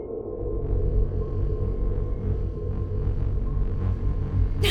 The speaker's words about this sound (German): wenn wir ein Signal über den Hyperraumantrieb leiten. Das müsste im Äther ordentlich brummen. Versuchen Sie es. Schnell! Ich sende das Störgeräusch jetzt.